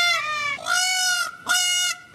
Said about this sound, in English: People normally love to hear birds sing at sunrise, like these, featured on the Audubon Society's YouTube page.